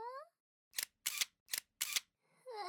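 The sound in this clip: A camera shutter clicks four times in a steady sequence, each a crisp mechanical snap. A woman's voice is heard briefly before and after the clicks.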